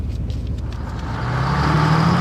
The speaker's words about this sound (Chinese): 好，坐稳当了啊，开了。